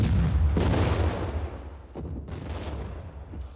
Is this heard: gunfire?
yes